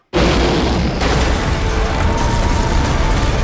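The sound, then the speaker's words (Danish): Explosive destruction from a monster movie trailer in which a giant creature tears Tokyo apart: a loud, dense roaring blast that bursts in abruptly and holds steady throughout. “Ja, og så her, der er så fuld knald på destruktionen. En kvinde sidder i tog, ser ham, og så, ja, han river Tokyo fra hinanden.”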